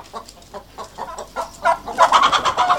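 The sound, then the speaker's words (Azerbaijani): Chickens and chicks, among them a speckled Astrakhan hen, cluck in a coop. Many short, rhythmic clucks repeat steadily and grow louder and denser toward the end. “Sağıcı Mahiyyə deyir ki, buranı toyuq damı kimi istifadə edir. Xeyli sayda toyuq cücənin içərisində xallı tüklü Həştərxan toyuğu xüsusi diqqət çəkirdi.”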